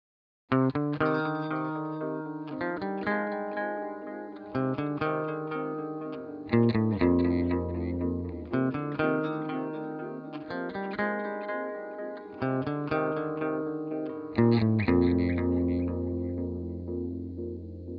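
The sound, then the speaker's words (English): Guitar track played through a DSP tape delay simulator from IK Multimedia's T-Rax 5 plugin suite: plucked chord phrases return as warm, decaying repeats that blur together across the passage. “here we're using a DSP tape delay simulator off of T-Rax 5, which is IK Multimedia's plugin suite. We're going to take a look at what this effect would sound like on a guitar track.”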